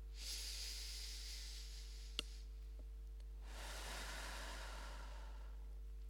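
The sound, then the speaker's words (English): A deep breath drawn in through the nose and let out through the mouth. It is a quiet, airy hiss: first the inhale, then a broader, slightly louder exhale, with no talking. “take a big deep breath in through the nose and out through the mouth. Okay, here we go.”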